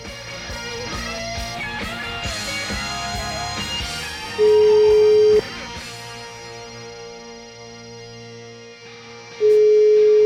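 Two long, steady ringback tones of an outgoing telephone call, separated by a few seconds of quiet, following a stretch of fading music at the start.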